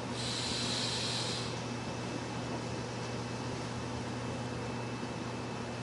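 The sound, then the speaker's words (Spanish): A deep exhale during a guided group breathing exercise at a workshop: a soft airy rush lasting about a second and a half, then a faint, steady background hum. “tomamos aire, expulsamos, otra vez,”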